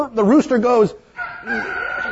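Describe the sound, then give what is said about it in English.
A person's voice imitates a rooster crowing, giving two drawn-out crowing calls separated by a short pause. “And the rooster goes,”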